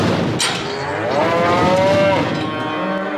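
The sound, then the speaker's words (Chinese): A beef cow lows at feeding time on a cattle-raising village farm in Faku County, Shenyang. It gives one long, drawn-out moo that holds a steady pitch and then trails off, loud over a noisy farmyard background. “养牛是陆家防身村的传统产业，全村肉牛存栏近1000头”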